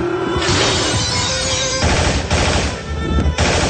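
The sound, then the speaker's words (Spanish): Machine gun fire sprays at threatening targets through a shattered window shutter, a continuous, loud, dense roar of rapid shots with a few short breaks between bursts. “Juan saca su ametralladora y dispara contra todo lo que se mueve amenazante”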